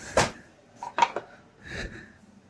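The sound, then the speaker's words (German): A small cutting board is picked up and set down in a kitchen while porcini pasta is being made, giving a few soft, hollow knocks and clatters. “Und dafür nehme ich mir jetzt ein kleines Schneidbrett.”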